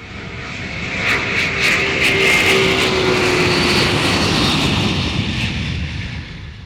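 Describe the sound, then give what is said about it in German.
A rocket flying into space gives a loud, sustained roaring rush that swells within the first two seconds and holds steady before easing slightly toward the end, with no voices. “Fliegen wir mit unserer Rakete ins Weltall. Dann los geht's!”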